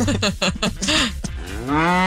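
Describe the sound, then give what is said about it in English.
A cow moos in a deep, drawn-out low, loud and alone with no talk over it. “Play the cow.”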